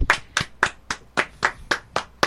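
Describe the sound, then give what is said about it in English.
Nine sharp, evenly spaced hand claps at a steady moderate rhythm, each crisp and clearly separated by brief silence. “I'm going to clap on that one, too.”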